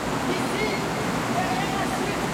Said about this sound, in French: Ici, derrière la chute d'eau!